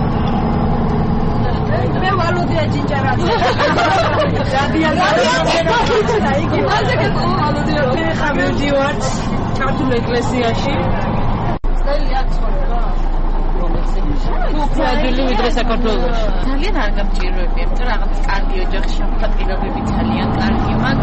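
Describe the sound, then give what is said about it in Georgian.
Passengers chatter in a steady crowded babble inside a Munich bus bound for the Georgian church, over a continuous low engine rumble. A deeper hum joins partway through. “მიუნხენში არის ერთი ადგილი, საიდანაც ავტობუსი მიუნხენის ქართულ ეკლესიამდე მიდის და ამ ავტობუსში ყველა ქართველია.”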